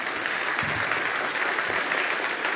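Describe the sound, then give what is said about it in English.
Church audience applauding to welcome a guest speaker, an evangelism professor, with dense, steady clapping that holds at an even level for the whole stretch. “Give him a good hand. Welcome to the church.”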